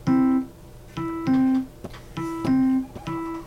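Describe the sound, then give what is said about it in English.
Plucked electric guitar notes from the E on the second string at the third fret, played as a clave rhythm: a few bright, ringing notes at one steady pitch in a syncopated pattern, alone with no voices. “Now, on the E note, second string, third fret, you're going to play the clave. The clave sounds like this.”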